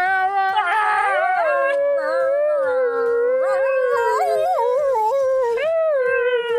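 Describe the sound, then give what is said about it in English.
A dog howls in a loud, high, wavering wail. Long sustained tones slide up and down in pitch, broken by a few short yips, with no talk. “Is that supposed to be a dog howling? Yeah.”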